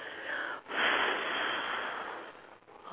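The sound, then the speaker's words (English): A person breathes out during a guided breathing exercise, one long, steady, airy exhale lasting about two seconds, with a short breath just before it and another starting at the end. “Now breathe out.”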